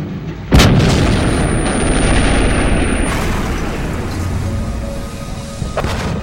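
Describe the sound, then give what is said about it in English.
Gunfire and heavy blasts from a chaotic gunfight between snipers and terrorists: one sharp, loud shot opens into a sustained rumbling roar, and another sharp crack comes near the end. “German snipers eliminate five of the eight terrorists in the chaotic gunfight.”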